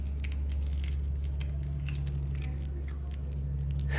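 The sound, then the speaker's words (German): Two zoo sloths chew raw sweet potato sticks, with many small, wet crunching and smacking bites over a steady low hum. “unsere beiden Faultiere, Usti und Charlie, die sind wach und topfit und schmatzen wieder die ganze Zeit so genüsslich”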